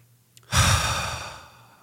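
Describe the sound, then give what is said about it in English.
One deep breath, a loud, breathy rush of air that starts abruptly and slowly fades away over about a second. “What I just did. Breath.”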